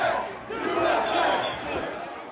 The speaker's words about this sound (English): That was the sound of violence at the U.S. Capitol 1 year ago today.